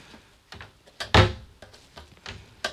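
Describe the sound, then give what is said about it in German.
A new garbage bin lid closes with one loud, hard thunk, surrounded by several softer knocks and clatters. “Allein der Unterschied wie eine alte Tonne, ne? Und wie eine neue Tonne schließt.”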